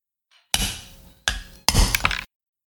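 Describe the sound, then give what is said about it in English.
A mug being smashed and breaking: three loud, harsh crashing bursts, the last one rough with clinking shards, with no talk. “I gotta smash this mug.”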